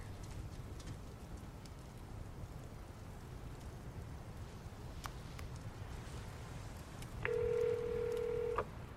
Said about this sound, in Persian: هیچی، فقط باید یه تماس بگیرم.